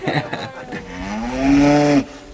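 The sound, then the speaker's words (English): A cow lets out a single long, low, throaty moo that swells louder and rises slightly in pitch toward the end before stopping abruptly. “We have a cow now, too.”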